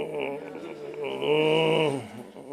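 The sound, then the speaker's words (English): An audience groans on request, a sustained voiced moan that swells in the middle and sags lower toward the end. “Everybody groan. Oh, come on, groan.”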